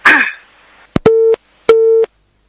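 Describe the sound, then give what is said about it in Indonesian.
A telephone busy signal follows a disconnected call: after a brief voice fragment and a click, two steady, loud beeps of roughly equal length, each marked by a click. “Kalau terputus, Ibu Siti, sambungan teleponnya, mohon maaf.”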